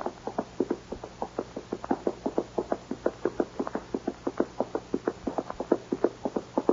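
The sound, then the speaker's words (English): Horses' hooves clopping in a western radio drama as riders set off for the north pasture, many evenly paced hollow knocks in a brisk, steady rhythm, alone with no talk. “Now, Mr. Cooper, we'll ride over to the north pasture and then we better get home.”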